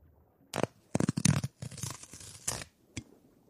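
Paper tearing as a check envelope is ripped open: a series of short, crisp ripping bursts with brief gaps between them, fairly quiet and with no talk.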